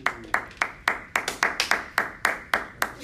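One pair of hands claps in a fairly steady rhythm, many sharp, crisp claps with a few quicker ones bunched in the middle, each ending abruptly.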